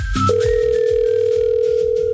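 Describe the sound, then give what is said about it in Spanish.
Ringback tone on an outgoing telephone call: a steady electronic tone at one pitch, held unbroken for about two seconds over low background noise. “Le está timbrando a Victoria.”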